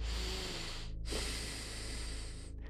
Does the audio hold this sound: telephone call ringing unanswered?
no

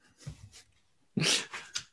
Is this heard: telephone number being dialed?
no

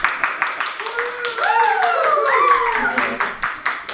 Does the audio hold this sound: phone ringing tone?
no

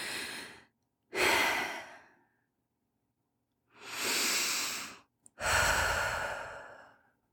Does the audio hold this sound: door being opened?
no

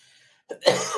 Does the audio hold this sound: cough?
yes

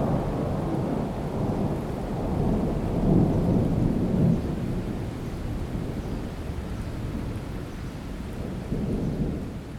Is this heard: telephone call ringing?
no

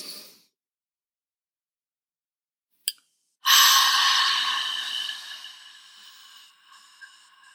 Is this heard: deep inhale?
yes

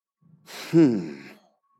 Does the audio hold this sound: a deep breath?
yes

